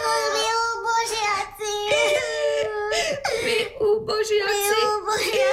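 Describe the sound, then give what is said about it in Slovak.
Whimpering, sobbing cries of a wooden puppet boy in a dramatised fairy tale, a loud, continuous, wavering high-pitched wail broken by short sobbing catches. “Neplač, Pinokio, neplač, lebo aj mňa rozplačeš.”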